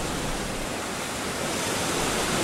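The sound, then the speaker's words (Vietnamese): Violent storm wind rises over the sea as a loud, continuous roaring rush of noise, swelling slightly toward the end, with no voices. “một trận cuồng phong thực sự nổi lên, gió bão mịt mù, cây cối nhà cửa trong vùng đều rung chuyển dữ dội”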